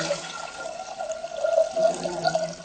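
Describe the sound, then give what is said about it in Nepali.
Water pouring as about a liter goes into a cooking pot, a steady, fairly quiet gurgling splash that runs continuously with small ripples in level and no voices. “यो भाँडामा अन्दाजी दुई तिनजनामा पुग्छ दुई तिनजनालाई पुग्छ एक litre पानी हालौँ”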